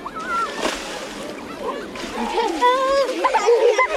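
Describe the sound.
People splash water across a shallow reflecting fountain in the centre of Bordeaux, soaking one another. The splashing and sloshing is continuous, with children's voices and shouts over it.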